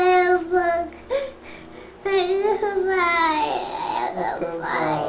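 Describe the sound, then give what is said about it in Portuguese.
A young girl crying in high, wavering sobs and whimpers, loud and nearly continuous with a brief break about a second in. “Oh, filha, estás a chorar porquê?”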